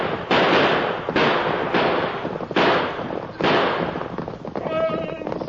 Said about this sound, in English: Shoot it out.